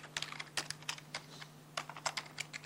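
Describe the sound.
Quiet typing on a computer keyboard while code for a function is being written: many quick, irregular key clicks arrive in short bursts, with brief pauses between them, over a faint, steady low hum.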